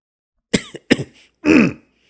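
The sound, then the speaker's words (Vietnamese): An old man clears his throat in a few short, gruff bursts, then gives one longer, rasping cough. The sounds are loud and stand alone against silence. “Lão Đăng thấy vậy liền ho lên một tiếng”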